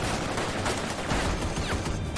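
Rapid gunfire crackles in a dense, sustained burst, shots running together into a loud, even roar throughout, with no voices.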